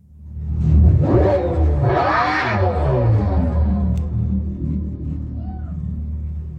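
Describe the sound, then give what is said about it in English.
Deep rumbling engine of a supercharged V8 car: the tone swells and shifts in pitch as it revs, then settles into a steadier, lower drone for the rest of the run. “another manufacturer who is making a supercharged V8? Again, it's neat that it makes a noise and allegedly it's from the motor itself, but it doesn't sound good. Here, listen to it again.”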